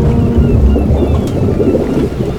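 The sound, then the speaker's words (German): A boat holed by a cannonball sinks into the water: a loud, continuous rumble of churning water with a wind-like roar, steady throughout and without distinct separate events. “Mitten in der Poseidon klaffte ein großes Loch, in das bereits Wasser eindrang. Schon nach wenigen Sekunden sackte das Gefährt ab und verschwand schließlich in den Fluten.”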